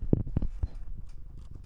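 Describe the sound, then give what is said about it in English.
A cat purring right into a microphone, heard as three heavy low thumps close together followed by a rough, fluttering low rumble that carries on to the end. “That was a cat purring in the microphone.”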